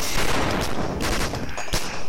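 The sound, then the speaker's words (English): Gunfire from shooting at zombies: dense, continuous bursts of rapid shots that run together like a fusillade, loud throughout with a few sharper cracks standing out. “Harry, Draco, and Cho ran down the moving staircases, shooting every zombie they saw in the head.”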